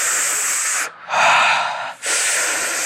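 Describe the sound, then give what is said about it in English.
Deep belly breathing in a guided exercise: three long, loud, hissing breaths, each held at a steady level and split by short silent pauses. “I want to feel the body move. Breathe from your belly, through your chest, into your head.”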